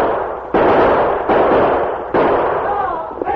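Outlaws fire their guns in three loud, sharp blasts spaced across a few seconds, each one trailing off into a long, rumbling decay.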